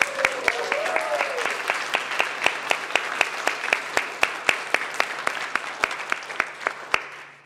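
Audience applause greets three teams reaching the final round of a quiz competition at the UC Davis Graduate School of Management, with steady, dense clapping that holds for several seconds before thinning slightly at the end.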